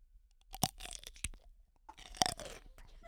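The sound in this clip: A horseradish half-sour pickle is bitten and chewed: a few sharp, wet, crisp crunches with quieter chewing between them, close and loud in a quiet setting.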